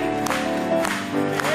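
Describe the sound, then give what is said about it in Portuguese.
A church audience claps during a hymn, with a few rhythmic hand claps standing out over sustained music. “Batemos palmas mais uma vez.”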